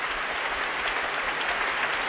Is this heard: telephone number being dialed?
no